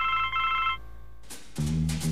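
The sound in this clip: Mobile phone ringtone of repeating electronic tones: a higher-pitched phrase, a brief gap, then a lower-pitched phrase resumes, clear and moderately loud with no voices.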